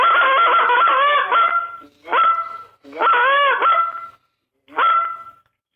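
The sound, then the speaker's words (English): A waterfowl expert imitates a goose call with loud, nasal honking in four bursts, the first long and warbling and the rest shorter, separated by brief silences. “That was not a real goose, everybody. It sounded real”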